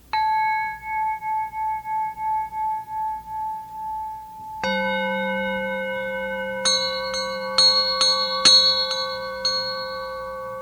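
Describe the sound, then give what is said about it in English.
Bells ringing in a meditation setting: a single sustained tone with slow pulsing waver, then a second strike, followed by several quicker, brighter bell hits layered over the lingering ring. “And as you listen to these words, to the sound of the bells,”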